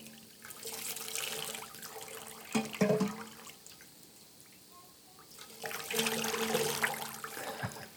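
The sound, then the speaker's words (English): Water poured over a person's head during a baptism, heard as two spells of loud splashing and rushing separated by a quieter pause with a few small knocks. “you just want to lean over so I can pour it across your head.”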